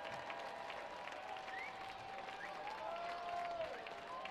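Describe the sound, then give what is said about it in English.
Crowd clapping at Atrium Health Ballpark during a baseball game, with the Fayetteville Woodpeckers down to their final strike in the top of the ninth; faint, steady applause runs throughout with a few thin whistles above it. “Crowd here at Atrium Health Ballpark clapping it up as Talavera tries to get the final strike. Some rising to their feet.”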